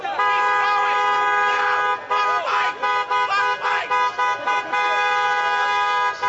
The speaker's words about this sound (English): People blowing horns in, like, vehicles with American flag decals on them and a decal of Donald Trump sitting in the back, on the rear window